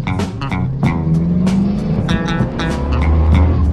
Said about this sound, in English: We're going to take you around the racetrack now. Speed ranging up to 135 miles an hour. We'll explain each turn, what gear we're in, what RPM, and what speed we're in. Here we go. We're in first gear.